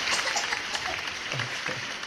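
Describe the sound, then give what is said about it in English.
Applause from a crowd: a dense, steady patter of many hands clapping continues evenly for the whole brief moment. “She can't hear this, but there's applause for you right now.”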